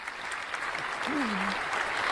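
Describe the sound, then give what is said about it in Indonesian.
An audience applauds a team in a quiz contest with steady, moderately quiet clapping throughout, and a brief voice rises above it midway. “Kita berikan tepuk tangan untuk regu C.”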